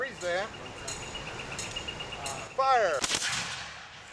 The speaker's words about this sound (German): Waffenkunde steht auf dem Programm. Wir schießen mit Musketen. Schnelles Nachladen zählt mehr als präzises Zielen.